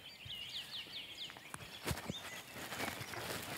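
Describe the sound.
Crunching footsteps on gravel in the Feldensteiner Forst in the early morning, taken quietly and spaced irregularly, while bright bird chirps and tweets carry on throughout.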